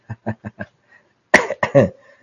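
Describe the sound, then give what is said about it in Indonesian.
Coughing from a dry throat: a quick run of four short, clipped coughs, a brief pause, then a louder, harsher cluster of coughs that trails off. “Gitu nih tenggorokannya kering, batuk-batuk semua satu rumah kita.”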